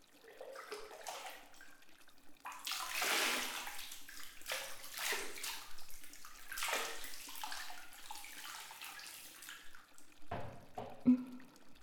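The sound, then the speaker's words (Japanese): Hot water is poured over someone sitting in a bath, a faint, steady rushing splash that swells and eases in waves for several seconds before ending with a few sharper splashes. “お湯かけるわよ。”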